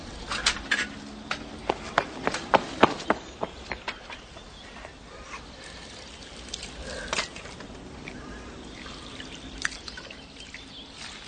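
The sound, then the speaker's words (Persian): Water from a tap near a house splashes as someone drinks and washes hands and face: many faint, irregular drips and splashes, busiest in the first few seconds, then thinning out over a soft trickle. “نزدیک یه خونه شیر آب میبینه و میره از اون آب میخوره و دست و صورتشو میشوره”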